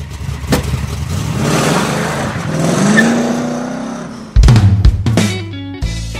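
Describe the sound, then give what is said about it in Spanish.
A motorcycle engine revs hard, its pitch climbing steadily for several seconds before a sudden louder, rougher burst of engine noise near the end; loud throughout, with no talk. “que prendamos la moto. ¿Prendemos la moto?”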